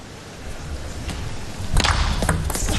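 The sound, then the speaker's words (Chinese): A table tennis backhand flick on the return of serve, in a China versus Japan men's team final: a few crisp ball strikes over steady crowd noise that grows louder after the hit. “又是一个绝对大脚的反手拧。这个球接发球真是有点让对手崩溃啊。”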